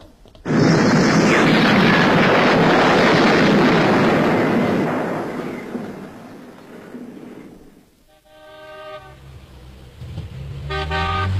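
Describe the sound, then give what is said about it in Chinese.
A staged explosion at a hotel, played as a drama sound effect: a loud, broad roaring blast that holds for several seconds and slowly fades, followed by brief tonal, horn-like honks. “803，太子岗酒店发生人为爆炸事件，局长要你马上赶到现场。”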